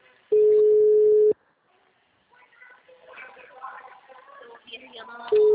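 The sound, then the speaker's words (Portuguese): Telephone ringing tone as a call is placed: a steady mid-pitched tone sounds for about a second, then a pause and a stretch of talk, and the same tone starts again at the end. “Tô ligando pro Rodolfo.”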